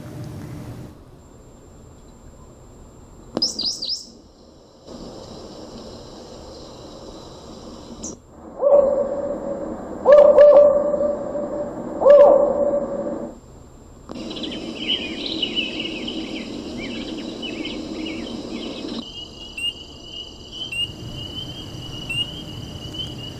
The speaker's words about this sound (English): someone made a soundboard. Of the national parks. Of national parks with all the bird sounds and stuff.